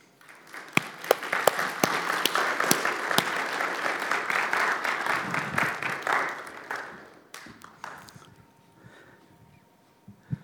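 An audience applauding to welcome a guest: steady, dense clapping that holds for several seconds, then fades to a few scattered claps.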